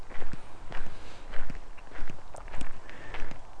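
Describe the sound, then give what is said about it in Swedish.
Footsteps crunch in a steady walking rhythm on a hike to the Träsket croft ruin, fairly loud, with no talk over them. “Genom att gå och prata så här för mig själv så hör jag,”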